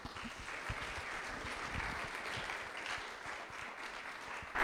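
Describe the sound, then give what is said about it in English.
A church audience applauds as a guest preacher comes up to preach, with steady, sustained clapping from many hands at an even level throughout. “So let's give him a warm welcome as Stan comes to preach for us.”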